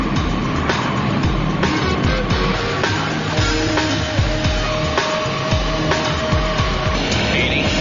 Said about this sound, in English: Okay, start. Buffalo 1101 now taxiing for departure.